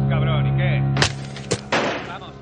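Gunfire erupts as agents shoot a man in the back: three sharp, loud shots in quick succession over steady droning tones.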